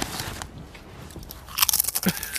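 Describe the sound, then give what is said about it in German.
Crunchy chips being eaten, with crisp crackling bites and chewing that stay sparse at first, then turn into a dense cluster of loud crunches in the second half. “So, das tut der Audio richtig gut, die Chips zu essen.”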